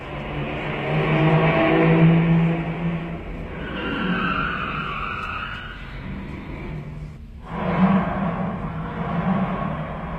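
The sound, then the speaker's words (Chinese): A car drives away with a sustained engine roar and a skidding tyre hiss that swells and eases. A brief dip comes near the three-quarter mark before a final surge. “汽车又开走了”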